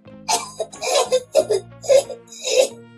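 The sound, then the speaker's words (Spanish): A voice performs persistent coughing: about six rough, voiced coughs in an uneven run, loud and close, some with a throaty, almost laughing edge. “Tosió con insistencia para crearle remordimiento.”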